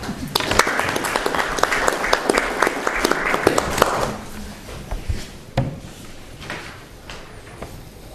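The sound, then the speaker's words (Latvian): Applause at a council meeting after a unanimous vote: brisk, dense clapping for about four seconds that thins and fades away, with one sharp knock near the end. “Vienbalsīgi lēmums pieņemts. Es lūgtu aplausus.”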